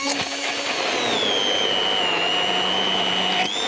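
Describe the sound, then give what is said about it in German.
Loud motorized whirring of a blender pureeing tarragon with two egg yolks and a whole egg. The drone is continuous and steady, with a high whine that settles after the first second and cuts off near the end. “So, ich habe hier zwei Eigelbe und ein ganzes Ei. Tu den Estragon da rein. So. Und jetzt muss ich einmal kurz Krach machen, damit ich das püriere.”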